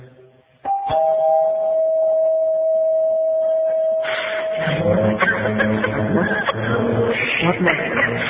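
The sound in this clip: A doorbell rings as one steady, sustained electronic tone that holds for about three seconds, followed by people talking.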